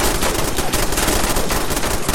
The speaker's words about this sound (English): Oh god, I'm getting shot.